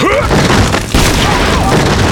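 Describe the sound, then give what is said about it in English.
A double-barrelled shotgun blast, two loud booming roars of broad noise with a brief dip between them, filling the whole short stretch. “This man held a shotgun too, and Preacher barely had time to recognize him as Lorenzo before the twin barrels were leveled at him.”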